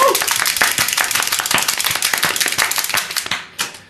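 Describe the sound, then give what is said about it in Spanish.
Many hands clap to welcome a guest on a television program, a brisk, dense, steady applause that holds at an even level before thinning to a last few claps near the end. “Hacemos palmetas oficialmente para recibirlo.”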